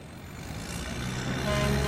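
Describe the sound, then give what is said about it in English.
A steady, heavy rumble of dozens of armored military vehicles driving onto a base in Iraq, raising a cloud of dust, holds as a dense, broad roar that grows slightly louder, with no talk. “There are dozens of armored vehicles driving onto this base, creating a massive cloud of dust.”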